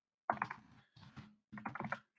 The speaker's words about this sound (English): And I'm trying to type it in right now.